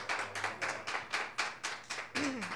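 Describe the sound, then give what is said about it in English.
Hand clapping welcomes a writer at a reading. A steady run of distinct, crisp claps comes at an even rhythm, and a brief voice is heard near the end. “Please give Suzanne Owens a big welcome.”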